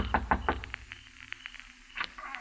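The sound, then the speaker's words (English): Knocking on the door of a house in the hills just outside town at night: a few quick, sharp raps at the start, then fainter taps, and one more lone knock near the end. “I kept knocking.”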